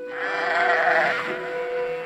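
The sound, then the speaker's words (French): Goats bleating on a sparsely forested Greek island, a loud, sustained, wavering bleat with a nasal, quavering tone that carries steadily through about two seconds. “Les Grecs ont livré leurs îles aux chèvres qui, depuis, rasent tout, gratis.”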